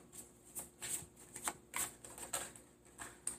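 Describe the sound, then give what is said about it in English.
A stiff Tarot Grand Luxe deck is shuffled by hand, many faint, short riffling bursts that fall in a fairly even rhythm. “These are some stiff cards. Woo! okay, and this is from the Tarot Grand Luxe tarot card deck”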